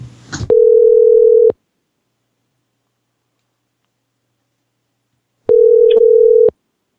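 Telephone dial tone sounds in two loud, steady, mid-pitched bursts of about a second each, separated by a long silence, with a brief handling rustle just before the first.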